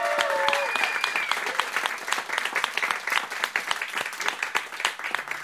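A studio audience applauds a band after a live in-studio radio performance, with dense, steady clapping and scattered sharper claps standing out, easing slightly toward the end.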